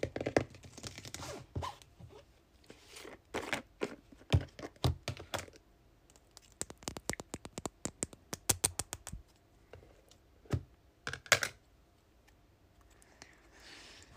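Body butter being handled in its container for ASMR, with crisp tapping and clicking. The clicks come in irregular bursts, some single and some in quick runs, separated by quieter pauses.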